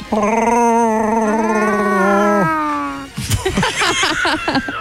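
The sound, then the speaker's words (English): A human voice imitates a Wookiee growl with a long, wavering, moaning howl that rises and then drops off, followed by people talking. “Never tried to do your own Chewbacca sound? Can you do that?”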